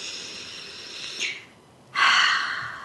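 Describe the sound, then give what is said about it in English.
Deep breathing, a soft airy breath followed after a brief pause by a longer, louder, rushing breath, with no talk. “So I really want you to just for a moment pause, take a deep breath,”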